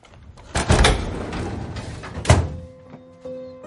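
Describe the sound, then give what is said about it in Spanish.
A door pulled shut as someone leaves a room in a thriller film: a dull, muffled thunk followed by a second firm thud, then a faint sustained tone as the sound settles. “Lanzándole un beso a Casey, se marcha cerrando la puerta tras de sí.”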